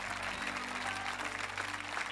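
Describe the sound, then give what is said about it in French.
Church audience applauding during a worship service: dense, steady clapping that holds at an even level for the whole stretch, with no voices standing out. “Allez, donnez-lui, acclamez-le avec moi.”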